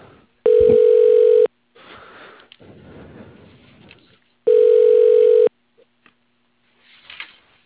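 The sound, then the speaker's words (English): Telephone ringing tone as a call is transferred to voicemail: two steady, loud one-second tones separated by hissy line noise and faint rustling. “I'll put you over to your voicemail, okay?”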